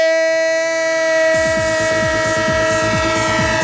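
A train sound effect for a Spanish sports radio show: a steady, sustained horn-like tone, joined after about a second by loud, rhythmic clickety-clack of wheels on rails that continues to the end.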